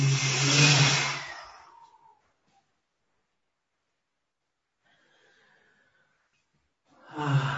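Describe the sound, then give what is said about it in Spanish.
A slow, deep breath during a guided breathing exercise, a breathy rush lasting about two seconds that fades into silence, with another breath beginning at the very end. “Y vamos por tercera y última vez, inhalando bien profundo, expirándose y...”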